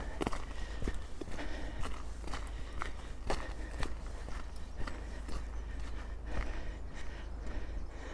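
Footsteps crunch along on a blustery walk approaching a hill. Many soft steps fall in a steady walking rhythm over a constant low wind rumble, faint overall.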